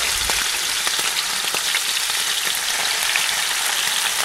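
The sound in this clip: Shrimp fry in a pan with a loud, steady sizzle that holds level throughout, speckled with quick crackles and pops, and no voices.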